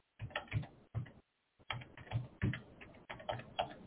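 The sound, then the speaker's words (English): Rapid keystrokes on a computer keyboard as a number is typed in, crisp clicking bursts with a brief silent pause partway through, then more quick taps. “So let me type the number.”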